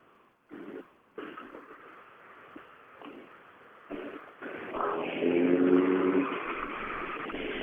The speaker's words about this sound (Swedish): Orange 240 med svart motorhuv. ytterligare bil kommer in bakom.